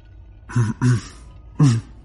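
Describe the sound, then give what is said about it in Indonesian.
A person beside a roadside clears their throat in three short, low, gruff bursts. The first two come close together and the third follows after a brief pause. “Terdengar suara orang berdehem di sebelahku.”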